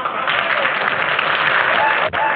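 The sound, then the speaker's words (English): A saloon crowd applauds a performer as she takes her bows. The clapping is loud, thick and sustained, with a brief gap near the end. “The crowd applauds as Queenie takes her bows.”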